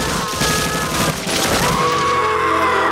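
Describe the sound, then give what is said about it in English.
Rapid gunfire on a bridge as shooters on both sides open fire at a girl: dense, crackling bursts of shots, loud at first, then thinning into a lower rumble. “Fire at the girl from both sides.”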